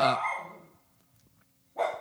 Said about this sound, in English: That's our dog, Francis.